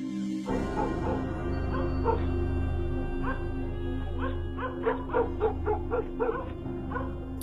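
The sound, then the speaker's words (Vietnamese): Dogs from several houses up by a road bark at night toward a stream below, with many short yapping barks and whimpering yips in quick bursts over a steady low drone. “Long nghe tiếng chó của mấy nhà từ trên đường cắn rỗng xuống dưới suối”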